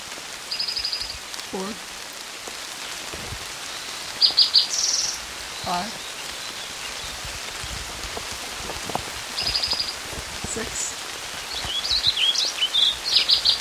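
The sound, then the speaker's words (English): Warbling Vireo song at Kinney Creek in hard rain: a few short, high warbled phrases rise above a steady, loud hiss of rainfall, with scattered drips and patters between them. “Eight, Warbling Vireo.”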